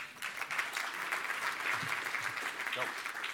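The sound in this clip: Audience applause welcoming a speaker from the Walt Disney Company's operations team: steady, fairly faint clapping from a crowd that holds evenly for about three seconds.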